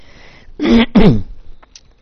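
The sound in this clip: A hacking cough from a person, heard as two loud, harsh bursts in quick succession, each with a rough voiced edge, followed by quiet.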